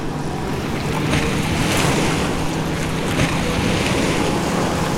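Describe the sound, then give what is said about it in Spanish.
Motorboat engine roaring steadily as the boat leaves the Jurado harbour mouth on the Pacific coast, with rushing waves and buffeting wind in a loud, continuous wash of noise. “Es el instante en el que el capitán acelera el motor de la lancha para salir de la bocana de jurado.”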